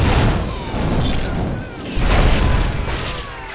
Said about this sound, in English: The flaming car bombs sail through the air and rain down on the lab and surrounding buildings, one after the other.